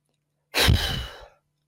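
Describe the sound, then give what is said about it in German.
One forceful breath is blown out hard, as if blowing the seeds off a dandelion during a breathing exercise. It starts as a strong airy rush and tapers off within about a second. “Und zwar atmest du dazu tief ein und dann stell dir vor, wenn du als Kind eine Pusteblume vor dir gehabt hast, was du dann gemacht hast. Ich zeig's dir gerade mal. Tief einatmen.”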